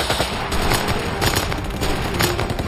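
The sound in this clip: Rapid gunfire from a Sten submachine gun, fired in wartime combat at German soldiers jumping down from a tank. Loud, dense and continuous cracking bursts run through the whole clip, with no voices.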